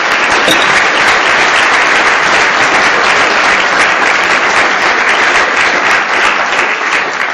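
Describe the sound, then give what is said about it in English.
An audience in Glasgow gives a warm welcome to a professor with loud, dense, sustained applause that holds steady from start to finish. “So, what I'd like you to do now is to put your hands together and give a very warm Glasgow welcome to Professor Tim Jackson.”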